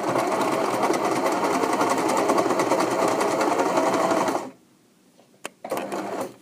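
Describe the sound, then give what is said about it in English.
Sewing machine running: a fast, steady mechanical stitching whir for several seconds that suddenly stops, followed by a couple of sharp clicks and a short final burst of running. “That mystery sound was the sound of my sewing machine.”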